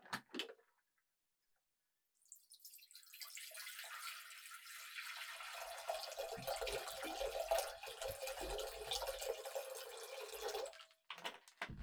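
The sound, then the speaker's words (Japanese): Faint, steady rush of hot water as a stainless steel bowl is dipped in to warm it, rising after a quiet start, holding for several seconds and then fading out. “ボールをお湯につけて温めますね。ステンレスなのでそのままだとちょっと冷たいんですよ。”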